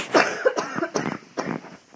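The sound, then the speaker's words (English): Coughing from one person in a few harsh, throaty bursts, unevenly spaced and fading toward the end, with no talk around them. “So I need to cough.”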